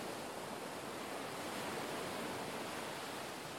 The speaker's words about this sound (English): Feel the energy of the waves flowing to you.